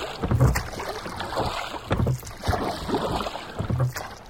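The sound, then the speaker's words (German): Oars pulling a rowing boat through water, with a few rhythmic low splashing strokes at a steady pace over a soft background wash. “Sven zerrte den klitschnassen Pitt und die triefende Jule ins Boot und legte sich in die Riemen wie noch nie zuvor in seinem ganzen Seemannsleben.”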